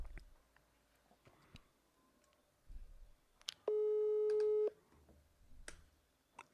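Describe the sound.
A ringback tone on an outgoing telephone call: one steady electronic tone lasting about a second, clear and fairly loud against a quiet background with faint rustles.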